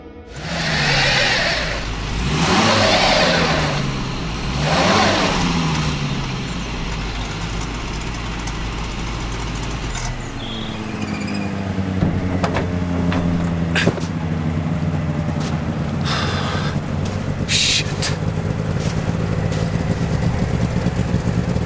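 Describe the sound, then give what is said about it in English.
Snowmobile engine starts and drives off: a few loud, surging revs at first, then a steady, continuous running drone whose pitch wavers up and down. “His snowmobile is still outside. I can take that.”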